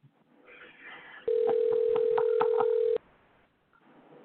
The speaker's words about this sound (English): how many fucking rings are gonna be? Great. No voicemail set up yet?